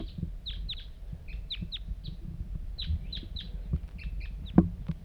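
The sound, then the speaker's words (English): Repeated high chirping calls from a lone wild bird, short downward-sweeping notes in irregular bursts over a low rumbling background, fairly faint, with one sharp knock near the end. “pointed at the wild bird. Here it comes. One lone bird.”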